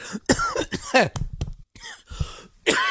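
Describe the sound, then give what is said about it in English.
Harsh coughing and throat clearing from someone choking on food: a few rough bursts separated by short gaps, mixed with strained voiced sounds. “I'm choking on some food I ate. Excuse me.”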